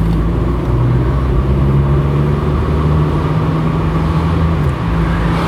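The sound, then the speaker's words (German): Steady engine drone of an Audi car on the road, a constant low rumble with a faint tonal hum that holds evenly for the whole stretch without a clear pass-by swell. “Boah, geht der mir auf den Sack mit seinem Audi?”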